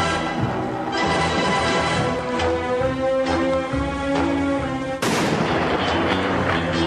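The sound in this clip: A single sharp gunshot cracks through sustained orchestral music in the James Bond Quantum of Solace gun barrel opening. It lands late in the passage, and the music carries on loudly after the shot.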